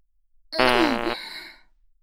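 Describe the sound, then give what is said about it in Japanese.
A single fart, a buzzing, low blurt about half a second long that drops in pitch and then trails off into a fainter, airy tail. “おならなんかで大興奮。”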